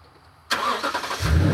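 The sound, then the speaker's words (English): A car engine starts abruptly after a quiet moment, catching with a loud, broad burst of sound that soon settles into a deepening low rumble. “We start driving again.”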